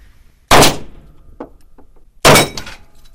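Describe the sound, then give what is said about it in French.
Two 12-gauge shotgun blasts at a shooting range, sharp and loud, about two seconds apart. Each blast has a short decaying tail, with near quiet between them. “Il se met dans la position pour commencer à tirer avec son arme.”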